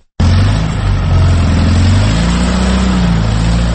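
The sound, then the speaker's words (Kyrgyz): A car engine revving hard while the vehicle sits stuck in deep snow, a loud, sustained mid-pitched roar that holds steady throughout with only slight wavering in pitch. “Чай кайнам убакыттан бери канча айдаганына карабай калың карга тыгылган унаа ордуна такыр козголбоду.”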